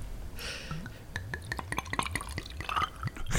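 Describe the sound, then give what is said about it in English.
Ice cubes dropped into a drink make many sharp, glassy clinks with small liquid drips between them, a quick irregular patter of bright taps. “Put some nice clinking ice. Drop that ice in there.”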